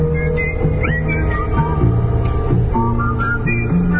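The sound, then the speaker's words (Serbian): Whistling along to 1960s-style music on the outskirts of Belgrade, a melodic whistled line gliding over a steady, full backing of continuous music at an even loudness, with no talking. “A malo da zviždućemo uz ovaj 60s zvukove.”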